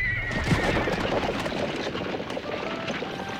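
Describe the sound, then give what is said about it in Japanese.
A horse neighs as a horse-drawn carriage pulls away across a grassy field, with clip-clopping hooves under a dense, continuous rustle of noise. “馬車は草地を離れました。”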